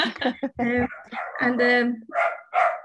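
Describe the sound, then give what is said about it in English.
A dog barks and yips in a quick, uneven run of several sharp, pitched barks mixed with higher whining sounds. “Sorry, that's my dog in the background.”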